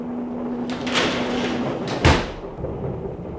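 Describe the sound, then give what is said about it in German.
A door being closed: a brief scraping sweep, then a single dull thud, fairly quiet overall. “Machen Sie die Tür zu.”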